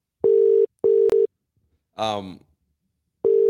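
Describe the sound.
A telephone ringback tone while a call waits to be answered: a steady, mid-pitched double ring, then a pause with a brief voice, then the double ring starts again.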